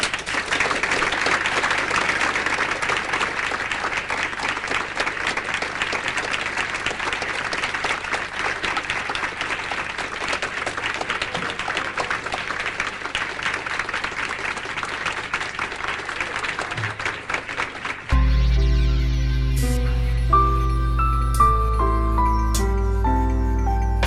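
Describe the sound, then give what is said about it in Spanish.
Audience applause, a dense, steady roar of clapping sustained for about eighteen seconds, then cut off abruptly as music begins. “Y también os pido, por favor, un aplauso para ese muchacho que lo hace.”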